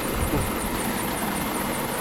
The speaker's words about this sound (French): c'est de là que va décoller l'hélico. C'est un lynx là, qui va nous emmener à bord.